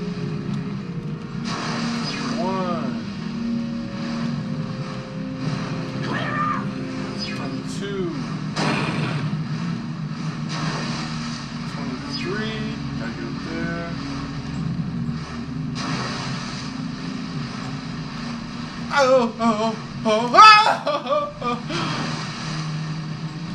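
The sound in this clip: Steady low engine drone of a vehicle driven in the video game Jak 3, humming continuously throughout, with brief voices and louder bursts near the end.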